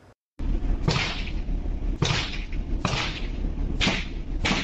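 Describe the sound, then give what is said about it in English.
Gunshots ring out during a police standoff at a home: five sharp, loud cracks at uneven intervals over a steady wash of background noise. “you can hear the shots being fired there.”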